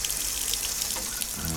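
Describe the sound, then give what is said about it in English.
Water runs from a faucet in a steady, unbroken hiss that holds at an even level for the whole moment, with no voices over it. “Turn on the faucet.”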